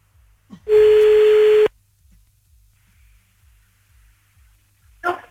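Telephone ringing tone as an outgoing call is placed: a single steady electronic beep about a second long, then near silence with a faint click near the end.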